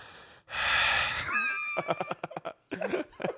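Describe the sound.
Loud, congested breathing from a man with a common cold who can't breathe through his nose: a long, harsh rush of air, followed by a run of short, choppy voiced bursts.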